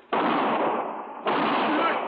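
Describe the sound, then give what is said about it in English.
Two loud gunshot blasts in a Western radio drama, each hitting sharply and trailing into a long, roaring tail. “My husband. You shot my husband.”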